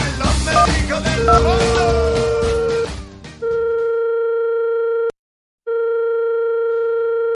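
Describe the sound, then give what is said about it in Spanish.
A telephone rings on the caller's end while a call is being placed. A dense, cluttered burst of mixed sound gives way to a steady electronic ringing tone in two long pulses, split by a short silent gap. “Venga, vamos por esa llamada y a ver qué nos cuenta Albertito.”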